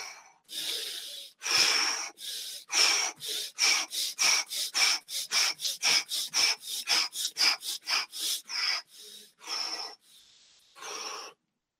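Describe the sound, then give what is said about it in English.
Power breathing: many quick, forceful breaths, each drawn in through the nose and pushed out, in a steady rapid rhythm of airy, hissing bursts with short gaps, slowing slightly toward the end. “You breathe in through the nose, exhale.”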